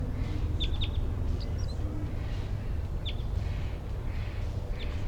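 A wild bird chitters in a few brief, high-pitched chirps. The chirps are scattered across the stretch and sit fairly faint over a steady low rumble.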